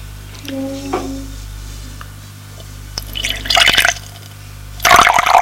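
Water is poured from a glass bottle while a table is served. Gurgling and splashing come in two loud bursts after a quieter start, with no talk.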